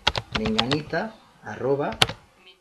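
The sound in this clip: Clicking keys on a computer keyboard as an email address is typed, quick taps mixed under a person speaking.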